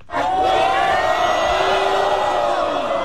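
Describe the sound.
A crowd in a Xi'an pool hall cheers a new world champion pool player as he walks in, a loud, sustained roar of shouts and whoops that holds steady throughout.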